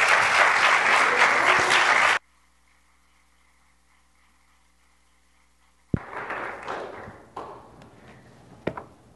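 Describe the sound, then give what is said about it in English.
Church audience applauding a visiting guest speaker, a dense burst of clapping for about two seconds that stops abruptly into near silence, followed later by a sharp thud and scattered rustling knocks. “Give him a good Liberty Christian Church round of welcome.”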